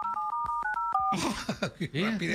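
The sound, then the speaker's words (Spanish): Telephone touch-tone dialing as a number is redialed, a quick run of several short, evenly spaced beeps, followed by people talking. “a ver, déjale, marco otra vez. Aquí salió su caller ID.”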